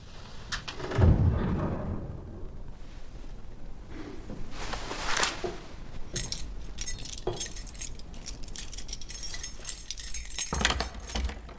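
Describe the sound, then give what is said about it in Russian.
Keys jangle and clink as someone tries them one after another in a locked door. The metallic rattles come in irregular bursts over several seconds, some sharp and some softer. “подбирает ключ закрытой двери.”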